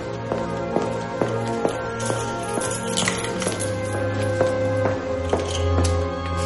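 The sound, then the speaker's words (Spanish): Footsteps of someone walking through a tunnel: a steady, evenly spaced series of sharp taps running throughout, heard over a sustained tonal background. “Camina por un túnel. Saca unas llaves del bolsillo de la gabardina.”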